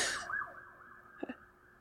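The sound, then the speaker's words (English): Sirens: a faint, sustained high wailing tone that wavers early on and then holds steady, with a couple of brief, low bursts near the end. “Wait, this is a lot of sirens.”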